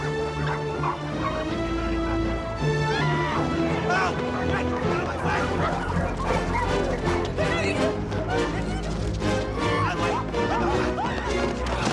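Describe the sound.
Dogs bark and yelp as they chase through a busy fruit and vegetable market, their barks mixed into dense, loud music and voices.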